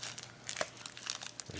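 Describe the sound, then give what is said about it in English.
Crinkling of a Luna Blueberry Bliss snack bar wrapper as someone eats it: crisp, irregular rustles and crackles come in many small bursts throughout, fairly faint and alone. “I was wondering what that sound was. I can hear something. It wasn't me, bruh. It's a Luna bar.”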